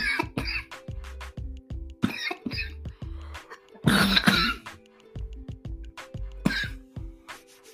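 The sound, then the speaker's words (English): Coughing and throat clearing from a person choking on smoke: many harsh, rough coughs in uneven bursts, with one longer, raspy hacking fit in the middle and more coughs after it. “The smoke kicked up. You know how the smoke hit the back, like a certain part of your throat, like a... I'm not normally a cougher, choker, but y'all know, y'all done heard”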